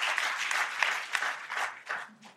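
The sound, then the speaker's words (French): Audience applause at a church gathering: a steady patter of many hands clapping at moderate volume, with slight swells and dips over a couple of seconds. “Est-ce qu'on peut applaudir ce que Dieu fait dans la vie de Marco?”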